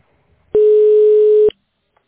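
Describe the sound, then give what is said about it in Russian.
Ringback tone on a telephone line while a call to a tax inspection office waits to connect: one steady, loud, mid-pitched beep lasting about a second, alone, then silence. “Ожидайте соединения.”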